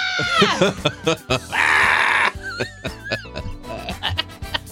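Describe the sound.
A person imitates goats bleating with a quavering, wavering voice that drops in pitch, followed by a loud noisy burst and then talking.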